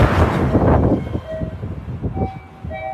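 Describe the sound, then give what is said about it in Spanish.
Rumble of a passing bullet train: a loud, broad roar at first that eases to a lower rumble, with a few thin, high tonal notes sounding over it. “¿por qué le enseño el tren? Usted dirá, Baella ha puesto un tren bala”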